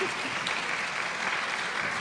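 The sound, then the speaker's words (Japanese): Audience applause at a talk, a steady, even patter of many hands clapping together at a constant moderate level, with no distinct voices over it. “ここで拍手”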